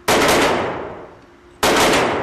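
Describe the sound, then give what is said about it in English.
Two loud gunshots from a semi-automatic pistol at an indoor shooting range. Each is a sharp, broad crack followed by a long ringing decay, and the second shot cuts in before the first has fully faded. “There's a woman learning how to shoot and a man firing a semi-automatic pistol.”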